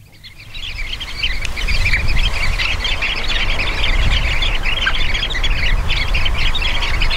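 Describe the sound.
Sanderling (Calidris alba) calls from a flock: many high, rapid chirps and squawks overlap in a dense, steady chatter that stays loud after a quieter start, with a low rumble underneath.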